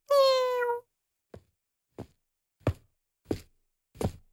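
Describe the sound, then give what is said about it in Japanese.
A cat gives one clear, drawn-out meow, followed by five soft, separate knocks spaced about evenly in otherwise quiet surroundings. “猫の鳴き声？”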